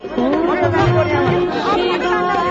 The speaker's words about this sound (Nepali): हिन्दूहरूको आस्थाको केन्द्र काठमाण्डुको पशुपतिमा पनि आज लाखौं दर्शनार्थीको भीड़ लागेको छ.